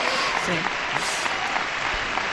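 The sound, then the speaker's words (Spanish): Dense applause with cheering from an audience after a political speech, loud and steady throughout with no clear breaks. “Aplausos y más aplausos, cánticos, ole, ole y taconeos incluso, ahora sí.”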